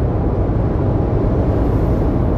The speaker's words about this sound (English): I'm sorry, I'm driving, y'all. If y'all don't know right now, I'm driving.